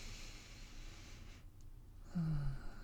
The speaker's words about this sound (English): So let's take a deep breath in right now.